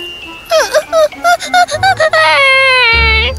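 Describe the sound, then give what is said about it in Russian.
A baby girl cries in a string of short, wavering, high-pitched sobs that rise and fall, then stretch into a longer sustained wail. “Но как только малышка Лия увидела, что он уходит, она вдруг заплакала.”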